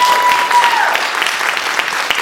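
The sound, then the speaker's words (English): An audience applauds a speaker at a literary awards event: loud, dense clapping at a fairly constant level from start to finish. “I didn't mean it as an applause line, but thank you so much.”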